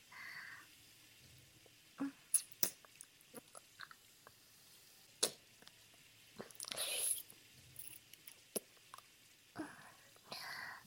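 Mouth sounds imitate a bite on the neck in an intimate roleplay: many faint, scattered wet clicks and smacks with soft breaths between, and one brief breathy rush, all quiet and close.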